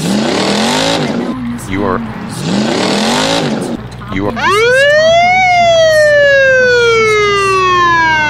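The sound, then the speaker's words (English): Police car siren sounding as a driver is pulled over for speeding at 65 miles an hour, a loud single wail sweeping sharply upward then falling slowly and steadily over a low hum, after a few seconds of wavering, busier tones. “The officer pulls you over and gives you a warning for going 65 miles an hour.”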